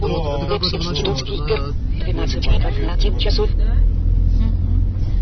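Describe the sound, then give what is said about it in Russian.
A car drives along Oktyabrskaya Street with a steady engine hum and road rumble. People talk over the constant noise. “И поехали. Видимо, по Октябрьской улице едем.”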